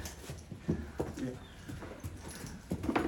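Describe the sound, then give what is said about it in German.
Hoofbeats of a horse walking back into its stable, a soft, uneven clip-clop of a few steps, faint over low background noise. “So, da kommt Sisverhahn zurück in seinen Stall.”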